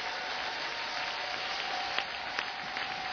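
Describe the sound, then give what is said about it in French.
A church audience applauds during a worship service, cheering in praise. The applause is a soft, steady patter that holds evenly for the whole clip, with no voices standing out. “Est-ce que nous pouvons encore acclamer Jésus, s'il vous plaît?”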